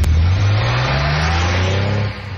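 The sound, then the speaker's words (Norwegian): A petrol engine revs hard from a pre-1974 Porsche at the Porsche Pre 74 meet in Stavern. The loud, throaty roar climbs steadily in pitch before it suddenly eases off near the end. “Hva var det for noe? Ja, ikke elbil. Det var definitivt ingen elbiler der, i hvert fall ikke på det store treffet. Porsche Pre 74-treffet.”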